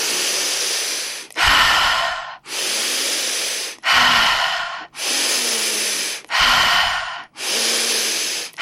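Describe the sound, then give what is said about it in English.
Rapid, deep breathing from a breathwork technique: loud, airy breaths follow each other in quick alternation, about seven strong breath sounds separated by very brief gaps, with no talking. “with this technique, we're breathing in, really quite deeply and at quite a pace. So to give you an idea, it would sound a bit like this.”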